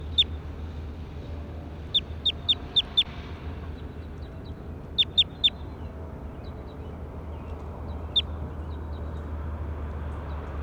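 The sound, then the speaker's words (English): Bird calls made of sharp, high chirps, each with a quick downward sweep. They come in a run of five, then three, then a single chirp, with a few fainter ones between, over a steady low hum. “That was bird two.”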